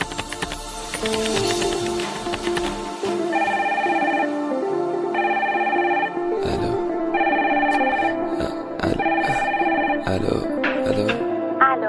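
Electronic phone ringtone for a short call, a bright melodic pattern repeating in four brief bursts over a busy background of clicks and other tones.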